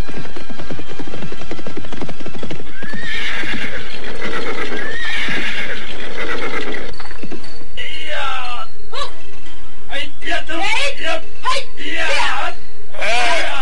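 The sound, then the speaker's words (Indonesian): Horses gallop and neigh as a troop of riders climbs a steep, rocky cliff. Loud, drumming hoofbeats run throughout, with several shrill, high whinnies rising over them. “melibatkan kuda mereka, rombongan pasukan itu berkelebat naik ke atas tebing yang berbatu terjal.”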